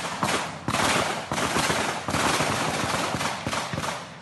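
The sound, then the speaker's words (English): Gunfire during an armed attack and police exchange of fire at an Amazon village: loud, rapid bursts of many shots in close succession, with brief gaps between volleys. “When federal police investigated this month's attack on the Yanomami village, they also came under fire and responded with their own shots.”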